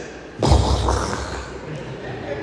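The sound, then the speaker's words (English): A voice imitates a stomach rumbling in the innards: a sudden loud, low gurgling burst that trails off into a softer, rough murmur. “And then all of a sudden, there was this noise in my innards. It was like this.”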